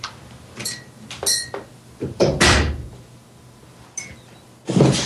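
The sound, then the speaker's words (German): A door being shut against a draught: a series of sharp clicks, rattles and knocks from the handle and latch, with heavier thuds in the middle and at the end, no talk. “So, jetzt habt ihr alle gehört, wie sich anhört, wenn eine Tür zugeht.”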